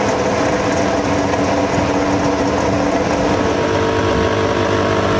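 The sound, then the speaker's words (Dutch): Formula 1 race car engines idle at a race, a dense, steady high-pitched mechanical drone that holds at an even loudness through the whole clip with no pauses or talk. “Formule 1 motoren die stationair draaien”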